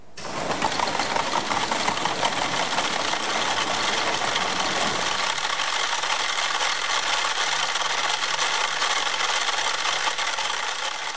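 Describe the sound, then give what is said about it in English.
One hundred metronomes ticking at different tempos merge into a loud, dense, continuous clatter of overlapping ticks. The texture is steady and mechanical throughout, and the lower rumble thins out partway through. “This piece of music is made entirely by metronomes, little tick-tocking machines that keep time for musicians. There's 100 of them, all set to different tempos.”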